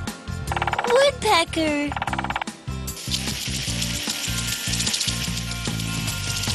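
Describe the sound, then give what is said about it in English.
A garden sprinkler gives off rapid mechanical ratcheting ticks. A bright, steady hiss of spraying water then takes over and continues to the end. “A sprinkler! That's right!”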